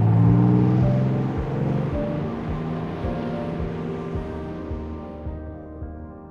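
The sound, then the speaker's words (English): Underwater rumble of ship motors, such as a cruise liner or trawler: a deep droning hum with steady tones and a regular throbbing pulse, loudest at the start and easing slightly toward the end. “the motion of the water is very loud and it's ever present as you're listening. Hearing the motors of other ships like a cruise liner or a trawler motor.”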